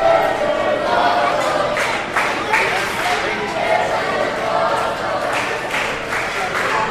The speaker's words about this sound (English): What a match. The crowd into it. The crowd is into it.